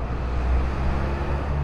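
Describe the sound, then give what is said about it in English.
Street traffic rumbles outside an office building at 2nd and Mission Street in San Francisco, a steady, even wash of car and road noise with no single vehicle standing out. “Outside Arup's office on 2nd and Mission Street, it sounds like this.”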